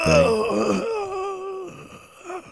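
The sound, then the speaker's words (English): A person voicing a dying, bloody gasp during a fantasy role-playing game: a drawn-out moaning wail that falls in pitch and trails off, followed by a fainter breathy stretch and a brief final groan. “That dying, bloody gasp kind of sounded like him.”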